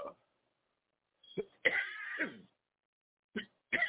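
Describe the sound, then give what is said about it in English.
A preacher at a church service clears the throat and coughs in a few short, rough bursts separated by silence, with one longer raspy stretch in the middle. “excuse me, I got a frog in my throat. Excuse me.”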